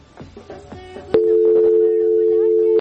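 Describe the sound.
A telephone line tone sounds for an incoming call-in: one steady, loud, mid-pitched tone holds for under two seconds, following a brief stretch of voice-like sounds.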